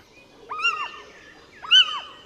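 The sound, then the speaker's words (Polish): Two drawn-out calls of a little owl, a small owl species that lives near people, each a clear whistled note that bends up and then down. The calls come about a second apart over quiet background hiss. “Jak Państwo słyszeliście kiedyś pójdźkę, jeden z gatunków sów, które towarzyszą człowiekowi, które występują na osiedlach, czasami nawet w środku miast,”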